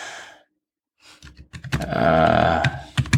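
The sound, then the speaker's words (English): Computer keyboard typing: a few quick, sharp key clicks come in short bursts after a breathy exhale at the start, with a louder sustained patch in the middle and more clicks at the end. “I'm typing right now, so you might hear that. Hey, you hear that? I type really loud”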